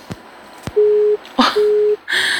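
Busy tone on a phone line cut off during a radio call-in: two steady, low electronic beeps of equal length follow a few sharp clicks, and a short burst of noise comes after.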